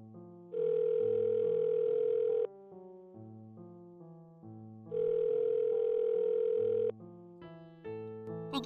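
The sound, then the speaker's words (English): A telephone line tone from a hallway phone beside the locker rooms sounds in two long, steady, mid-pitched bursts of about two seconds each, separated by a pause, with soft stepping music underneath. “Listen, is there a telephone nearby that I could use?”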